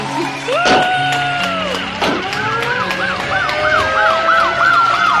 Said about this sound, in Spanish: Desde los balcones hemos homenajeado a los sanitarios con aplausos y también lo hemos hecho con las sirenas de las ambulancias y los coches patrulla.